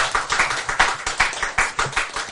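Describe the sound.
Audience clapping hands in rhythmic bursts, about nine sharp beats in just over two seconds, fairly loud and steady with no talk over it.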